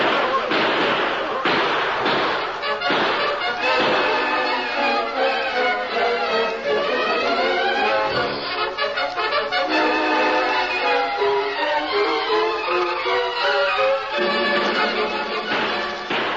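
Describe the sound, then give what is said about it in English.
Gunfire as a posse opens fire in a Western shootout: a few sharp bangs in the first seconds, mixed with loud shouting voices and other sustained sound. “Open fire!”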